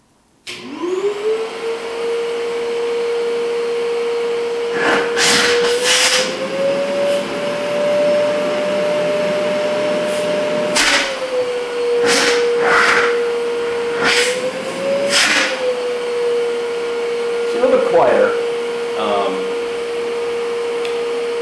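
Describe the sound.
A Windsor 10-quart backpack vacuum cleaner runs with a loud, steady motor whine that spins up at the start and then holds. Its pitch drifts slightly, and bursts of rushing suction noise come and go.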